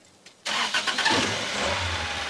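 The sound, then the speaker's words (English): A small, rusty car's engine bursts into a loud, rough roar after a faint click, with a few uneven surges. It then settles into a steady mechanical rumble. No one speaks. “The car lurches, then dies.”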